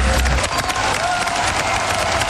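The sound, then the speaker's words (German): Applause from the audience at a charity donation marathon: dense, continuous clapping that stays steady and fairly loud throughout, with no clear break. “Diesen Applaus geben wir an Sie weiter.”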